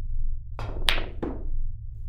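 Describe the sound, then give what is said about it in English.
Billiard balls crack together on a combination shot in a pool game, with the four ball driven into the seven toward a corner pocket. Three sharp clicks come in quick succession, each trailing off in a short ringing decay. “All right, combo shot. Four ball into the seven and corner pocket.”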